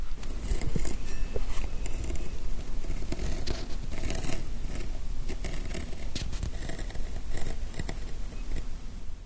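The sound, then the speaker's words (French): Leather being cut with a hand cutting tool, including soft, flexible sections of the hide: a steady, dense rasping and scraping texture dotted with many small clicks and snips, continuing without pause and with no talk. “Donc là, je vais prendre mon outil et je vais pouvoir découper.”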